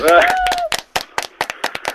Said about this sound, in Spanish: El Estudio de Comunes va a aplaudir. Felicidades, vas a ser padre.